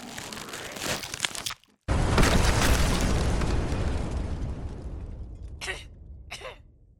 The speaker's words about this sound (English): Oh, that poor tank. Well, I always wanted to test small-scale nuclear weapons.